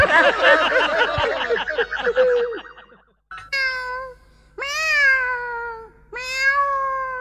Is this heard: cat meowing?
yes